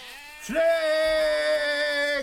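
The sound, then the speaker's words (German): A sheep bleats in a flock found by a shepherd, the lost lamb returned to the herd: one loud, long, sustained bleat with a steady, slightly wavering pitch, starting after a brief quiet moment and holding to the end. “Wir haben die Herde gefunden. Hallo, Herr Schäfer! Hier ist Ihr Schäfchen.”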